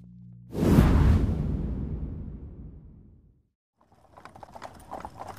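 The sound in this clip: A loud whooshing swell rises and slowly fades away. After a short silence, the hooves of a horse pulling a carriage clop in a steady, light rhythm.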